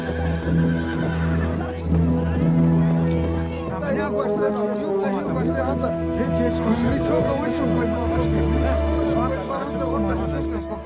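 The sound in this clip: Ponies neigh repeatedly over a steady clip-clop of hooves, with several whinnies rising out of the mix and a murmur of voices running beneath throughout.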